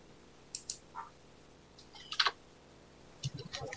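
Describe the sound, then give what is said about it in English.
Typing on a computer keyboard, a few faint irregular keystrokes that fall in small clusters with pauses between them. “We can go ahead and type it in.”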